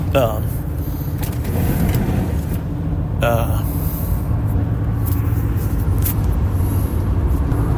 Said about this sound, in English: Welcome back. You didn't know I went away. That was brought to you by the outside air driving down the road.